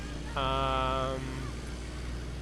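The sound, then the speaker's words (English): A truck driving by: a droning engine tone with steady harmonics rises out of a low rumble for about a second, then fades. “Okay, that's his truck driving by.”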